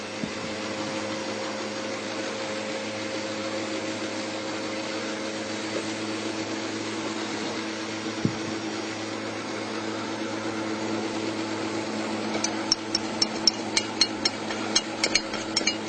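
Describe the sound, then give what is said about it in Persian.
An electric mixer runs on low speed, blending flour and milk into batter. Its steady, fairly quiet hum stays constant throughout, and a run of sharp ticking clicks comes near the end. “زمانی که آرد رو اضافه میکنم با دور کم همزن فقط هم در حدی که آرد مخلوط شد کافی هستش”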